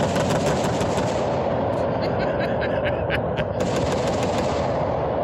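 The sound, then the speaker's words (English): A gunfire sound effect: a loud, unbroken stream of rapid automatic shots with a constant, harsh crackle across the whole stretch. “So all right, enough with the guns. I didn't know it goes three times. I mean, yeah, let's chop that to one. Okay, one round of fire seems plentiful.”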